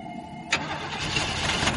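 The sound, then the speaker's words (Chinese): A car engine is cranked by its starter but fails to catch after stalling from a clutch released too fast. A sharp onset gives way to a steady, churning grind that runs to the end without settling into an idle. “四周一片的死寂，他一边紧张的朝外看着，一边手忙脚乱的打着火，却怎么都打不着。”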